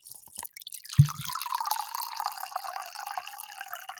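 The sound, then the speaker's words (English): Wine being poured from a box of Franzia: faint rustling, then a soft low thump as the flow starts, followed by a steady splashing liquid stream that continues for about three seconds. “for those only listening to audio, that is not him pissing, that's him pouring wine. What a nice send off from my friend, a box of Franzia.”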